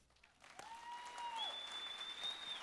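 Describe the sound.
Applause from a church audience welcoming a speaker to the stage: dense, steady clapping that swells after a brief quieter start and holds strongly to the end.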